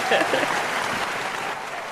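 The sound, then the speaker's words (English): An audience gives a round of applause, steady and dense clapping that swells briefly at the start and then eases slightly, with voices speaking over it. “You round of applause, please. Round of applause for wine.”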